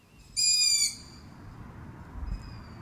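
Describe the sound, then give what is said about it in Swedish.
Young long-eared owls call to their parents from scattered perches in a small wood: one loud, high, drawn-out squeaky call stands out, then a much fainter call follows later over a low rumbling background. “Ja, det är nog hornuggleungar som sitter utspridda i en skogsdugge och ropar på sina föräldrar.”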